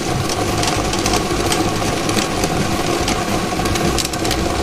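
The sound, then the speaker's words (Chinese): A lottery drawing machine spins 30 numbered balls, giving a loud, steady mechanical whirring and rattling that runs unbroken through the whole stretch with no voices. “大家看到摇奖机已经正式启动了，我们看到30个号码球正在飞速地旋转着”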